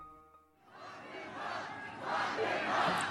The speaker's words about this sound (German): Was ihr hier hört, ist eine Menge in Arizona, die Donald Trump zuruft: Sperrt ihn ein, sperrt ihn ein.